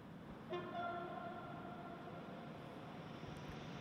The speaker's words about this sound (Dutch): En daar komt de ijstrein hier net toe achter mij.